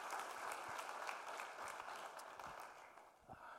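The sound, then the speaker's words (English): A church audience applauds to welcome a pastor. Many hands clap in a dense, even patter that thins slightly toward the end. “So, why don't you put your hands together one more time and make Pastor Mark welcome as he comes?”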